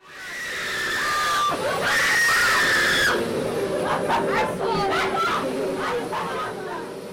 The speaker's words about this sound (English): That's the sound of screaming coming from inside Blood Manor, a thrilling haunted house in Manhattan.